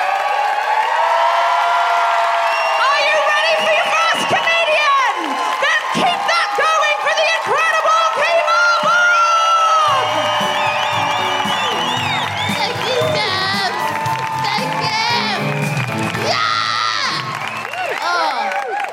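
A live audience at a comedy show at the Lowry in Salford cheers loudly. High, excited whoops and shrieks mix with clapping and shouting and stay loud throughout.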